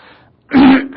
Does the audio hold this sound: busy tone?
no